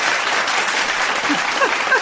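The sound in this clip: Studio audience applause on a cooking show after a sufganiya dessert is presented: a short, loud burst of dense, even clapping lasting the whole moment.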